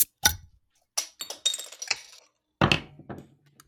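Several cans of beer are cracked open in a few separate bursts, each a sharp metallic pop followed by a short fizzing hiss that fades away.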